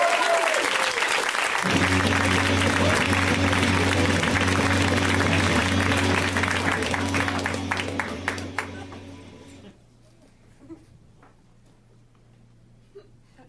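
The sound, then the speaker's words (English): Audience applause for a comedian at a comedy show: dense, loud clapping that holds steady for about eight seconds, then thins and fades out. A low steady hum is left underneath. “Let's hear right now for Sean Conroy, guys. Give it up for Sean.”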